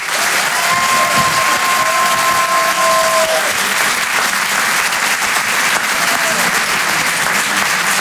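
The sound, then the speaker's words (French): Loud, steady audience applause with some cheering greets an impressionist taking the stage at a comedy and song show, and a long sustained whistle rings out over the clapping near the start. “Faites un maximum de bruit, s'il vous plaît, pour Antoine Donneau.”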